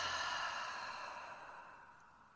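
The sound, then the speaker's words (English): A slow, soft exhale during a calming box-breathing meditation makes a faint, airy hiss that gradually fades away over about two seconds, with no talk. “Now breathing normally. Inhale, exhale,”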